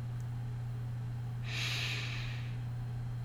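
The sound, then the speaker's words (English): One deep inhaled breath, a soft airy rush lasting about a second. It is faint, heard alone over a steady low electrical hum. “I invite you to take a deep breath in, friends,”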